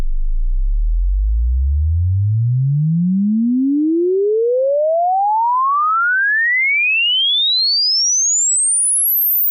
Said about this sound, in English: Here is a 10-second frequency sweep from 20 to 20,000 hertz.